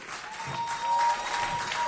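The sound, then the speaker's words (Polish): Applause from a crowd cheering a brass section, heard as a thick, continuous patter of many hands clapping. It holds a steady moderate level for just under two seconds. “wielkie brawa!”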